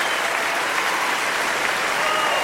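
Audience applause at a live bluegrass concert: a dense, steady wash of clapping that holds at an even loudness throughout.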